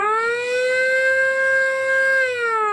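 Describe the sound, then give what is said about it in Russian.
A ship's siren blares on the Volga as the skipper signals to moor: one loud, steady, harmonically rich horn tone held for nearly three seconds, dipping slightly in pitch as it ends. “Рявкнула сирена, шкипер обозначил решение причалить.”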